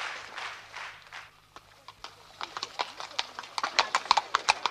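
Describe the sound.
A horse-drawn cab moves along as its hooves clip-clop in a brisk, regular beat. The hoofbeats grow sharper and louder toward the end.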